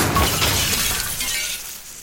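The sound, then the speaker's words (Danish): Glass trophies shatter under shotgun fire in a video game, a loud, dense crash of breaking glass that trails off over about two seconds. “mens du fyrer shotgun af, at du rammer simpelthen deres trofæer inde i rummet bagved. Oh. Så du rammer nogle af glasene.”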